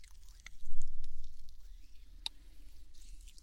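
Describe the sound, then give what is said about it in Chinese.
Soft, wet squishing and rubbing as lotion is massaged into an ear, with a few faint clicks and gentle patters scattered through a quiet, close sound. “那妈妈现在给你用乳液按摩耳朵了。”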